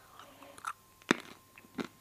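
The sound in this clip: Someone chewing nuts, with a few faint, crisp crunching bites spaced apart against quiet background hiss.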